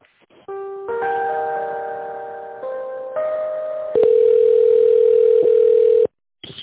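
Electronic telephone line tones play while a business call is transferred to a specialist: steady tones shift pitch a few times, then one long, loud, even tone holds before cutting off abruptly.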